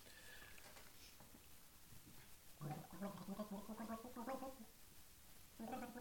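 A person gargles a TV soap opera theme tune during a quiz game, producing bubbling, wavering tones that shift pitch like a melody, in two bursts with a short pause between them, fairly faint over background noise.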